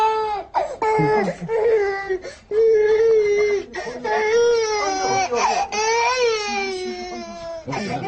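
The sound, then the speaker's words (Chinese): A baby cries loudly in sustained, wavering wails broken by brief catches of breath and whimpering sobs. The crying goes on almost without pause. “让你抱一下他，别哭了。”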